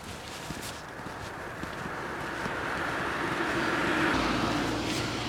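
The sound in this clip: A car passing on a road: a broad rushing noise that swells gradually to a peak near the end and eases slightly, with faint scuffing sounds early on.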